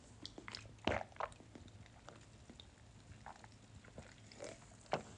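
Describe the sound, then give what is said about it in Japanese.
Gulps of sake taken by a person drinking it down in one go: a few faint, wet swallowing sounds spread across quiet surroundings, with one stronger gulp near the start and another near the end. “ちょっとお酒飲みます。”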